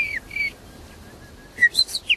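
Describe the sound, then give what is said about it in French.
A nightingale sings in short, clear whistled phrases. Two bright notes open, a faint thin tone lingers through a quiet stretch, and then a quick run of a few high chirping notes closes the passage. “Il est bon aussi le rossignol qui chante derrière. Il chante bien.”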